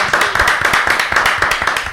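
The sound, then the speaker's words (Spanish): Loud applause welcoming a guest writer, dense, steady clapping from many hands filling the whole two seconds without a break. “Así que le damos la bienvenida a Martina Cruz. Un aplauso.”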